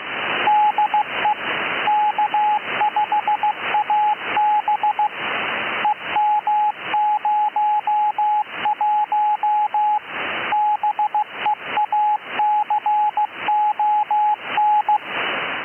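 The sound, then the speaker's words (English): Morse code from an automated, unattended CW propagation beacon on the 10-meter amateur band (28.2–28.3 MHz) in central Texas: a steady keyed tone of dots and dashes repeating over a bed of radio hiss and static crashes. “28.2 to 28.3 is the home of CW propagation beacons. These are automated, unattended stations that send their call signs, locations, and sometimes power levels over and over,”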